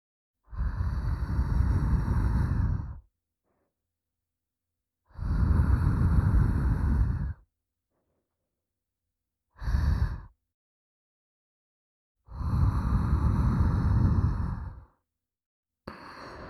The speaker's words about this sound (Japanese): ふうふうしてあげる。熱いもの冷ますとき、ふうふうするでしょ？